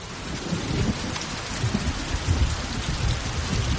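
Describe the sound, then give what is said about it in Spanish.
Steady rain pours during a mountain thunderstorm. It forms a dense, continuous hiss with a low rumbling undertone throughout, and no voices are heard. “Escalan mientras las montañas se cubren con nubes de tormenta.”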